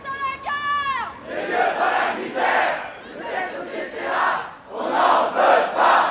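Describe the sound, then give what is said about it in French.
Protesters at a demonstration in France over precarity chant a slogan together. The loud group chant comes in several rhythmic bursts that swell and drop in volume, separated by short dips. “Moi j'ai failli chialer sur un slogan que j'ai pourtant entendu des milliers de fois depuis que j'enregistre des manifs.”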